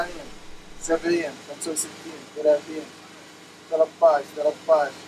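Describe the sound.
An electricity generator runs at a refugee camp near Jordan's border with Syria, giving a steady, even mechanical hum beneath a man's voice as he talks.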